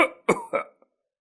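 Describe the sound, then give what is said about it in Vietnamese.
An old man's violent coughing fit: a quick run of harsh, raspy coughs in close succession, tapering to a faint final cough before silence. “Một cơn ho rũ rượi cắt đứt lời nói của lão.”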